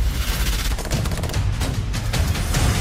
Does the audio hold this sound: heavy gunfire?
yes

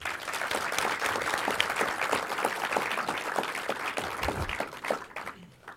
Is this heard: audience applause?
yes

